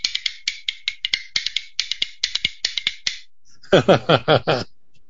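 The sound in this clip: Bones, the percussion instrument, played alone in quick rhythmic clusters of dry, crisp clacks, bright and sharp, running as a fast patterned rattle, with a short burst of fuller strokes near the end.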